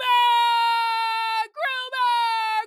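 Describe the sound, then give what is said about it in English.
A voice imitates a crying, wailing three-year-old child. One long, steady, high-pitched wail is followed by two shorter whining bursts separated by brief breaks. “They cry just like that three-year-old in the kitchen.”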